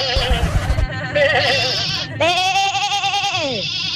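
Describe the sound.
A caller's voice imitates a sheep bleating in a phone-in animal-imitation contest, with loud, wavering, nasal bleats; the final bleat is long and drops in pitch at the end.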